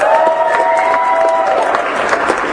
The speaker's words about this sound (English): Clap it up for him.